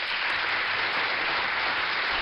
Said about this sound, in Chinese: 真的要再给你送一个掌声啊